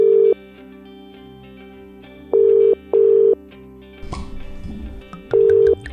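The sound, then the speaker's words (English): Telephone tones as a call is placed: loud, steady buzzing bursts that repeat in short pairs separated by longer gaps, with a brief rush of clicks and noise between them. “So, by the modern magic of technology, I am now going to attempt to dial them up.”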